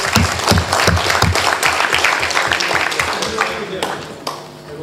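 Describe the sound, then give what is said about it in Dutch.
Applause at a council meeting for a council member's birthday: many hands clap in a dense, loud burst that thins out after a few seconds. “En daar mag volgens mij wel eventjes voor geapplaudisseerd worden.”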